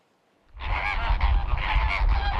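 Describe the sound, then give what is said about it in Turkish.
Migratory geese give loud, repeated nasal honks, a flock stopping over in Istanbul on the flyway between Europe and Africa, where birds are caught and ringed. The calls start abruptly after a brief silence and overlap continuously with a low rumble beneath. “Yakalanan göçmen kuşlar halkalanarak yeniden doğaya bırakılıyor.”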